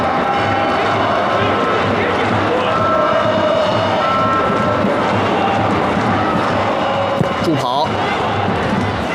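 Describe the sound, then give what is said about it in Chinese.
Football fans in the stands cheer and roar steadily through a Yanbian match against Hohhot, with a dense, unbroken wall of crowd noise that stays loud from start to end. “看台上呢球迷热情的舞蹈和加油助威相应成趣。”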